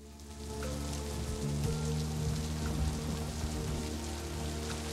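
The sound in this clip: Steady rain falling outside an office: a dense, even hiss with no breaks, with a low steady hum beneath.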